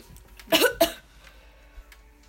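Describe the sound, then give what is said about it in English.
Two harsh coughs from a sick person, loud and close together, with near quiet before and after. “Why do you keep coughing? Because I'm sick.”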